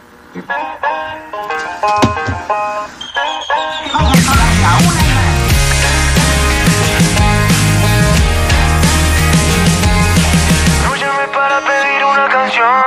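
A pop song dedicated to radio plays on the radio. A lighter melodic opening gives way to a loud, dense full-band section, which thins out again slightly near the end.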